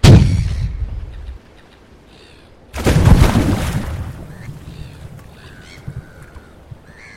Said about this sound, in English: The girl with the shotgun was almost on top of me. Her blue eyes were dilated. I reached out to grab the barrel when I saw the flash.